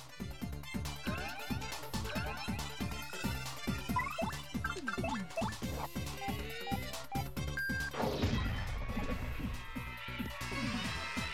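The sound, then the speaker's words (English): Trees topple and crash in Paper Mario: The Thousand-Year Door, heavy smashing thumps over steady, beat-driven game music, with one louder crash near the end. “Oh no, even the trees fell on this flower. Everything hates this one flower.”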